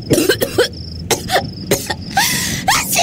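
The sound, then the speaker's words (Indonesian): A person with a worsening cold coughs in a rapid fit of repeated, harsh, chesty bursts, with short gaps between them and no speech. “Aku takut makin parah nih. Aku sekarang ada batuknya.”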